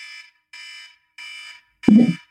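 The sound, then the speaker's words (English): A timer alarm going off: three evenly spaced, bright electronic beeps of equal length, then a sharp click and a short, lower buzzing tone. “And when the alarm goes off, we're going to move on to the next one. So when you hear,”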